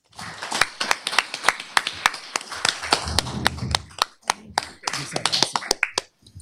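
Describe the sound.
An audience claps to welcome a panel: many sharp, irregular hand claps from a small group, loud at first, thinning out and then picking up again before trailing off.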